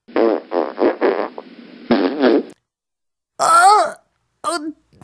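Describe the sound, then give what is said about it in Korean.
A long, buzzing fart in several sputtering pulses fills the first half, then after a pause come two shorter voiced, groan-like sounds with wavering pitch. “냄새! 방귀 낀 건 누구야?”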